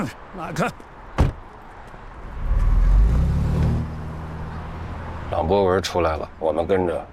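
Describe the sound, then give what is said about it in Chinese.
A car pulls away after a sharp door-like thump, its low engine rumble swelling for a couple of seconds and then fading, followed by voices. “胡建仁开车走了，我们跟上。”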